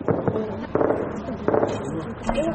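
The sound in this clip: Gunfire at night around Tarinkot city: several sharp, cracking shots come at irregular intervals over a constant rumble, with people talking amid the shots.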